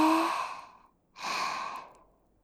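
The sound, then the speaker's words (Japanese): Slow, deep breaths are taken during a relaxation breathing exercise. Two long, airy breaths come one after the other, soft and with no talk. “リラックスして、ちょっと、呼吸を整えましょう。吸って、”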